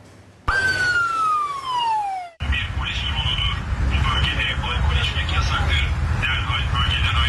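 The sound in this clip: A police drone over an open public area by the old city walls in Istanbul's Fatih district sounds one loud, falling siren wail, then a harsh amplified voice delivers a warning over steady outdoor noise.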